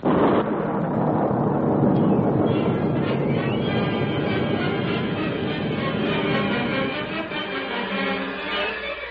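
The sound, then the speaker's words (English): An explosion blasting rock and earth from a hillside: a loud, heavy, continuous rumbling roar that holds for several seconds and eases slightly toward the end. “Blast went off, and great masses of rock and earth were torn from the side of the hill, blocking a narrow pass.”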